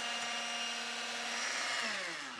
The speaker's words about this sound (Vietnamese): Cái máy này cũng đỉnh quá. Trứng biến thành mayonnaise luôn rồi.